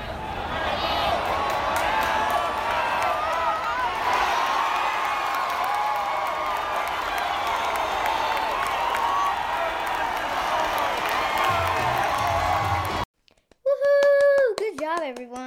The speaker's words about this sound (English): We also went to a baseball game. Here's some audio from the baseball game.